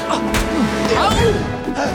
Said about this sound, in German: Lou gelingt es, mit der Stricknadel in die magische Scheibe des Tores zu stoßen.